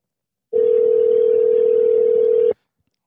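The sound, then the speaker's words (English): A telephone tone plays while a call is placed: one steady, mid-pitched hum holding for about two seconds before cutting off sharply into silence. “I'm trying to get our Gary Copeland expert on the phone here.”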